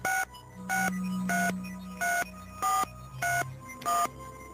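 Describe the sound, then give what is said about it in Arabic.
Touch-tone telephone dialing: seven evenly spaced beeps in a steady rhythm, with a faint continuous low tone running underneath. “اطلب لي الدكتور بشير على التلفون”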